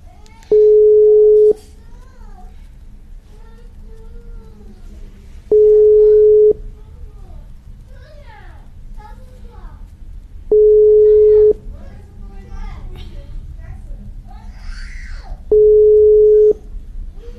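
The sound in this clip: Ringback tones of an unanswered telephone call: four long, steady mid-pitched beeps spaced about five seconds apart, with faint voices and background sounds murmuring between them.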